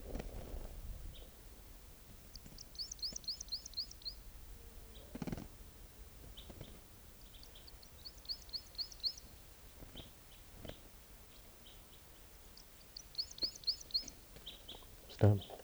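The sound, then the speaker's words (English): Bird song: three separate bursts of quick, high, trilled chirps with pauses between them. The singing is fairly faint over a low background with a few dull thumps. “Here's that same bird.”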